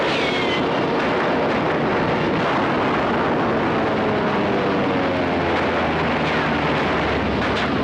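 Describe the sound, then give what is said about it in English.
Recorded battle gunfire from the film Sands of Iwo Jima: a loud, dense, continuous roar of blasts and rumbling with no clearly separate shots, sustained throughout. “Who's shooting? No one is. That's a recorded soundtrack from a movie studio, right out of the sands of Iwo Jima.”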